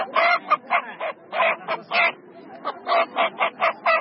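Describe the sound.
Chickens at a market give many short, squawking clucks in an uneven, bursty rhythm. The calls are fairly loud and run on without a break.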